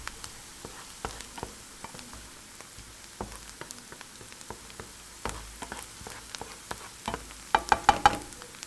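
Onion frying in a pan until golden makes a soft, continuous crackle and sizzle with scattered light pops, which grow a little louder and denser near the end.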